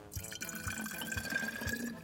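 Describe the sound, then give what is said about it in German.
Water is poured into a small bottle until it is about half full, a faint, steady liquid trickle with a few soft splashes and a thin ringing tone. “Als allererstes kommt in unsere kleine Flasche hier vielleicht mal so eine gewisse Menge Wasser. Magst du mal so die Hälfte voll machen mit Wasser?”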